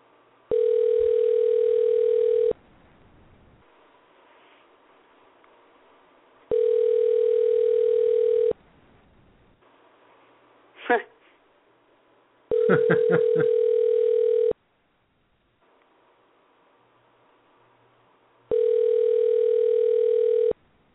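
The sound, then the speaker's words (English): A telephone ringing out: four long, steady ringback tones in a regular on-off cycle with pauses of several seconds between them, and a brief click in one of the gaps. “Hey, your phone's ringing. Hey, answer the phone. And we're dialing”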